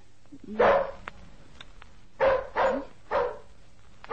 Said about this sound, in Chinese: 哎呀，咁咁样吠法噶？哇，咁吠法又得人惊噃。